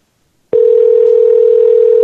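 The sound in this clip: Answering machine tone on a telephone line: a single loud, steady, mid-pitched beep that starts abruptly after a brief silence and holds unbroken to the end.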